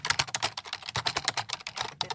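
Rapid typing on a computer keyboard, with many crisp keystrokes in an uneven, busy rhythm and short gaps between bursts. The clicks are fairly loud and heard on their own with no talking.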